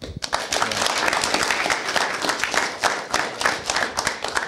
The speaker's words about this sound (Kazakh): қош келіпсіз шапалақтарыңыз